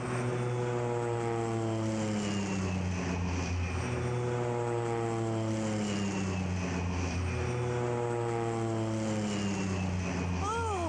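Propeller airplane climbing, a loud continuous engine drone with strong buzzing harmonics that waver in pitch throughout.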